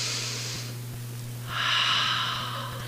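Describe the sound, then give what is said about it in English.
A child takes a big, deep, airy breath, a soft rush of air. A short breath comes first, then a longer, stronger one, over a low steady hum. “let's take a big breath. And he'll go,”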